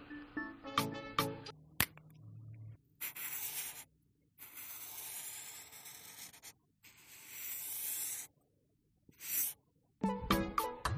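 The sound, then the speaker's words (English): A highlighter cap is pulled off, then the tip highlights and circles on paper. Short squeaky bursts come first, followed by several long, faint, scratchy rubbing strokes separated by brief pauses. “If you caught the beginnings of the cap off the highlighter and then highlighting, circling, another great sound for people who like to do it by hand”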